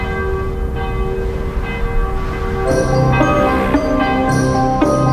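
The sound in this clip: A distant church bell from a church on a rocky hill rings over a steady, sustained droning background. A few clear, resonant strikes begin partway through and overlap as they ring on.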